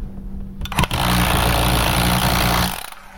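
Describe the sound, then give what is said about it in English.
An electric nailer with a rocker switch drives a nail partway in. A sharp crack and a loud, sustained mechanical whirring roar stop abruptly after about two seconds. “And that's how quick it drove that nail. I didn't want to drive it in a whole way because I have to hang something on it. It's loud, too. It's definitely loud.”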